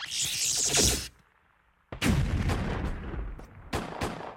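Strafing gunfire in a sci-fi comedy scene: a loud roaring burst of fire cuts off into a brief silence, then a run of heavy, booming shots, with a few sharp blasts near the end.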